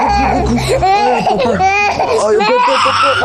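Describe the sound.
A baby crying in high, wavering wails, mixed with an adult talking over it.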